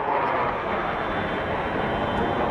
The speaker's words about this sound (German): Kampfjets fliegen tief über Ankara.